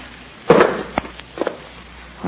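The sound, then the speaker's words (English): A few sharp gunshot bangs in a radio drama: one loud blast, a lone crack, then a quick pair of smaller pops, with a voice starting just at the end. “Mr. Slot Machine King, see what the sound of those shots brought you?”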